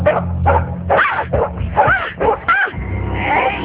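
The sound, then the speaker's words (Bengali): A dog barks and yips in several short, sharp bursts mixed with whining, loud throughout, over a low steady hum. “কিন্তু বিপত্তি ঘটল রাতে, যখন প্রথমবারের মতো কুকুরটাকে দেখলো টিয়ারা।”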